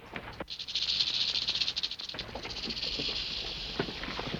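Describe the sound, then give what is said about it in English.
A rattlesnake's tail rattles in a dry, high buzzing hiss that starts abruptly and keeps going with rapid fluttering pulses, loud and steady with no voices. “She rattles the tail of the snake.”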